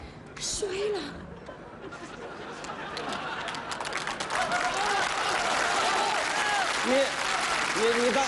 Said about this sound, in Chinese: 那孩子们他听得懂吗？ 都鼓了掌了。